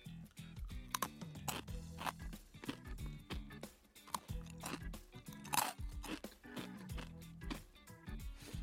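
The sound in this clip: Crunching and chewing of a thin, crispy salad-flavoured snack, many crisp crackling bites and chews in an irregular rhythm, fairly faint, with no talking.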